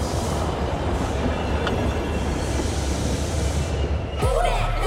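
A metro train arrives at a platform with a loud, steady rumble and wheel clatter that fills the whole clip, ending with a high squeal.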